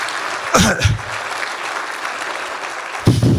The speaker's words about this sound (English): please, another round of applause